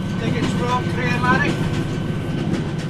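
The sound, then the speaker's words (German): A red Scottish Rail train rolls along with a steady, dense rumble and clatter that stays even throughout. “Um dorthin zu gelangen, besteige ich zunächst die rote Bahn der Scottish Rail.”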